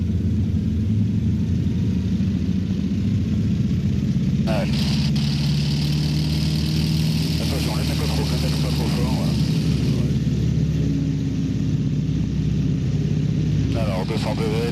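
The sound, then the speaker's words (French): A light plane's engine powers up for takeoff at Dakar on an African airmail route, a loud, continuous droning roar that grows brighter after a few seconds, with voices heard at times. “Ok, décollage à 06, top.”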